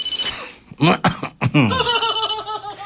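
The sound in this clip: A phone ringtone sounds in a bright, repeating warbling pattern, following a few short bursts of laughter.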